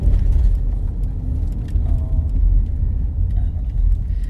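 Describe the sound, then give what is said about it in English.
A car driving along back roads after leaving the highway gives a continuous low road rumble and engine drone that stays steady and fairly loud throughout. “I'm driving the back roads right now, so it's going to be a little slow going because I got off the highway to make a loop around.”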